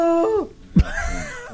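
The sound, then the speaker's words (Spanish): A human voice imitating a sea lion: a sustained tone that slides down in pitch, a short low grunting burst, then a rougher, wavering cry. “Eso es idioma lobo marino. Tengo que decirle buen día, ¿me entiende? Acabo de grabar ese audio.”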